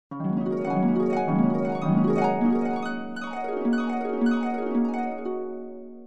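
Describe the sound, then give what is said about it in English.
Harp strings on a large wooden harp, swept and plucked in flowing runs of many ringing notes that overlap and sustain, with steady, fairly loud sweeps repeating throughout and no voices. “To play a harp, you sit down and run your fingers over the strings. Harps sound like this.”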